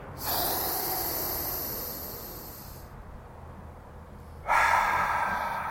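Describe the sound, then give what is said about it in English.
A deliberate deep breath taken as a calming exercise: a long, loud airy rush lasting a few seconds, then a short pause before a second, brighter breath begins. “I'm just going to take 3 deep breaths.”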